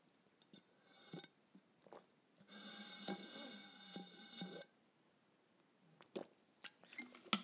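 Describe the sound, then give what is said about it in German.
Drinking sounds from someone taking a sip from a bottle. A few soft mouth clicks lead into a sustained stretch of sipping and swallowing lasting about two seconds, followed by more faint clicks, all quiet and without talk. “Und jetzt muss ich kurz mal einen Schluck aus Flaschi nehmen.”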